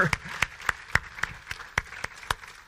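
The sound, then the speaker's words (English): A church audience claps in unison, giving nine sharp, evenly spaced hand claps in a brisk steady rhythm that are moderately loud over faint background noise. “Can I have a hand clap on that?”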